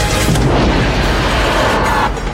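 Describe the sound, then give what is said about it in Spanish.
A torpedo launches from a submarine with a loud, sustained rushing roar, a broad, heavy booming noise that holds steady and eases slightly at the very end. “Otro torpedo, pero este fue activado al lanzarlo, señor.”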